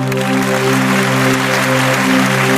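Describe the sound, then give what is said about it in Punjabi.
Audience applause at a Punjabi stage talk, a dense, steady wash of clapping that goes on without a break, mixed with sustained musical tones. “ਇੱਕ ਵਾਰੀ ਸੱਚਾ ਪਿਆਰ ਕਰਨ ਵਾਲੀਆਂ ਰੂਹਾਂ ਦੇ ਨਾਂ ਤੇ ਤਾੜੀ ਮਾਰ ਦਿਓ ਜਰਾ।”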